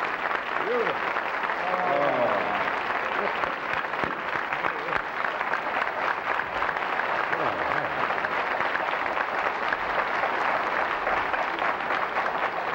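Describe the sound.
A TV talk-show audience gives Lucille Ball long, sustained applause, a dense and steady wash of clapping that holds the same level throughout, while voices talk over it.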